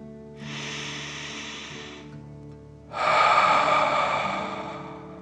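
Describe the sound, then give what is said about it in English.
Slow breathing, one long airy inhale followed after a short pause by a stronger, breathier exhale, over a soft sustained musical drone. “Remember to breathe slowly like a dragon in and out.”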